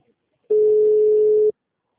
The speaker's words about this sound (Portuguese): Ligação caiu.